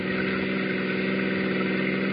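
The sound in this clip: Car engine droning steadily while the car is driven, a continuous even hum with no change in pitch and no voices.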